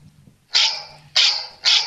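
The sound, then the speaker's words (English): A cell phone ringtone of a barking dog plays three sharp, loud barks, evenly spaced, over a faint low hum. “That's my ringtone on a cell phone. That's a barking dog.”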